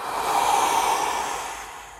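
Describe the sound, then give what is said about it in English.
A forced exhale after a big nasal inhale during guided breathwork: one sustained, loud, breathy rush of air that swells quickly, holds for about two seconds and eases off slightly at the end, with no voices. “start with a nice big natural inhale through the nose and let out a bit of a more forced exhale. So it sounds something like this.”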